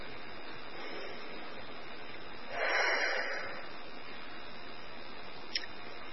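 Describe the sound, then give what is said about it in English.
A single deep breath, taken with hands resting on the heart: a soft, brief rush of air midway through, faint against a quiet background. “I usually put my hands on my heart, one on top of the other, and I take a breath.”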